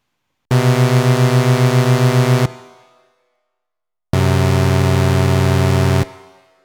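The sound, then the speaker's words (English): Dissonant tones from two synthesizer oscillators tuned far apart: two sustained buzzy notes of about two seconds each, the first with a steady pulsing wobble, each cut off and trailing into a short fading tail. “Or you can go completely dissonant, like this.”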